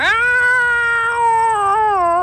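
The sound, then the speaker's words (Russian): An Angora cat's long, drawn-out meow, loud and sustained with a rich, steady tone that dips slightly and wavers near the end. “Он испустил протяжное мяу с соловьиными переливами.”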